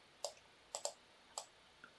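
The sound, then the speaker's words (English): Computer mouse clicks on a computer: four sharp, crisp clicks at uneven intervals, two of them close together, then a softer fifth tick, all fairly faint against near silence. “I click to the distributions and you can see it here.”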